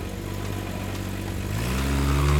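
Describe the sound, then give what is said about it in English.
A battered Jeep's engine as it drives off into the jungle: a low, rumbling drone that holds steady, then swells louder and climbs in pitch during the second half as the vehicle accelerates. “hopped into the Jeep, and drove out into the jungle.”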